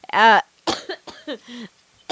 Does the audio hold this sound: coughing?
yes

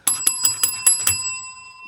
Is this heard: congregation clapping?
no

